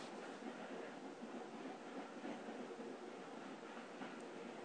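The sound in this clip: Faint, steady rumble and hiss of a moving train carriage, an even ambience without distinct events or voices.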